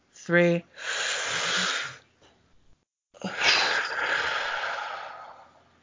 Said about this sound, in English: All right, are we ready for a good breath? Okay. One, two,